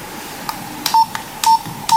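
Call tones from an old mobile phone during an incoming call: three short, identical mid-pitched beeps at even intervals, mixed with several sharp clicks over faint background hiss.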